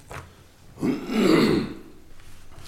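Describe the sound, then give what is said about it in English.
A single rough, throaty throat clearing rises to a loud, raspy rumble for about a second, then fades. Faint quiet sounds come just before and after it. “I got something in my throat right now. Maybe it'll go away after a while.”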